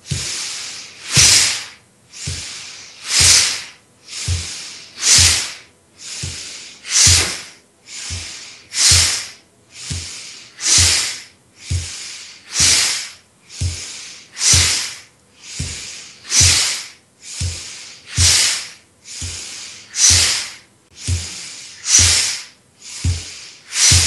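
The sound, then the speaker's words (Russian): Slow, even breathing in and out, with many soft breathy hisses alternating in a calm, regular rhythm and no talk. “Сделаем обычный вдох, обычный выдох. И дышим. Вдох, выдох.”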